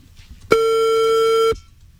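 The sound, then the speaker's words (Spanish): Telephone busy tone on a call to someone in Bogotá that is being rejected: a single steady electronic tone lasting about one second, starting and stopping abruptly, with no talk over it. “Está rechazando la llamada. Sí. Dios mío, no le ha contestado, ya la rechazó.”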